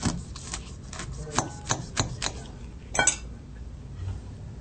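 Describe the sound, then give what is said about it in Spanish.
A knife cuts food with grains on a board, making several faint, sharp taps in an uneven rhythm with quiet rubbing between them. “mejor lo vamos a cortar en algo redondo que tenga forma, así los granos no se van a esparcir”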